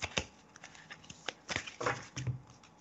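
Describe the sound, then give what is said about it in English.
Playing cards handled as one is pulled from a deck during a card reading: a few quiet, papery flicks and soft snaps at irregular intervals. “let's pull a card for you”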